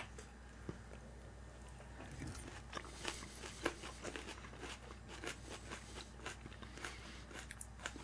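Faint, crisp crunches from someone biting and chewing raw white cooking onion, many irregular crackly bites and chews over a quiet background with no talk.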